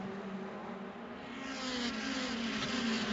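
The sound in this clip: Engines of Mazda MX-5 race cars battling in a gaggle of six during a race, a faint, steady droning whine that swells gradually louder toward the end.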